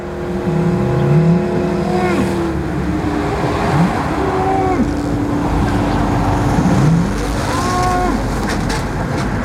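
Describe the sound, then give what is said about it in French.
Constant motorway traffic roar beside a roadside picnic spot, a loud, dense rumble throughout, with several engine tones rising and falling in pitch as vehicles pass. “Ici, pas de pli, pas de colline, pas de montagne pour dissimuler le son de l'autoroute.”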